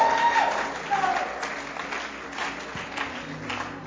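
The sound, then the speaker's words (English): Audience applause at a church gathering, a steady, modest patter of clapping hands that holds at an even level for several seconds without rising into loud cheering. “you guys clap as if you sat on your hand.”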